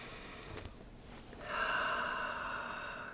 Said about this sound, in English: So let's take a nice deep breath